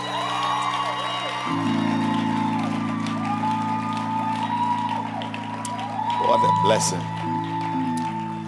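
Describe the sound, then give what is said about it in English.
Hands clapping in a church audience, scattered claps mixed with shouting and cheering voices over sustained keyboard chords that enter early and shift near the end. “Clap your hands again for them.”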